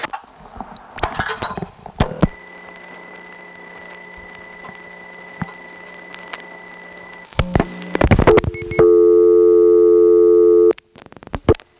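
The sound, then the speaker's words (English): Telephone tones after dialing a number: a steady tone, then a quick run of dialing beeps, then a loud, continuous tone that holds for about two seconds before cutting off. “Now I'll dial that again, except this time I'll reach it by dialing 425 and the last 4 digits.”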